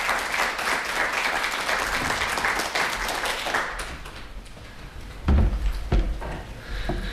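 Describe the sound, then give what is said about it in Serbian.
Audience applause welcomes a poet at a poetry evening. Dense, loud clapping runs for about four seconds, then thins and fades, leaving a few scattered knocks and thuds. “da pozdravimo našeg Gojka Božovića jednim aplauzom”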